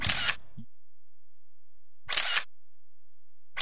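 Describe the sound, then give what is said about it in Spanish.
Camera shutters click as photographers take photos, with two sharp, loud bursts separated by silence and a third beginning right at the end. “Unas fotos antes. Es que han venido aquí unos fotógrafos que dicen que...”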